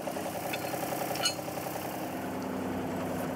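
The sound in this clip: A wheel loader's engine running steadily, a continuous low mechanical drone and rumble with a faint rattling vibration, holding an even level throughout with no voices.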